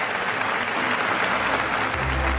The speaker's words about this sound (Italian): Molto bene, sfumiamo gli applausi, grazie.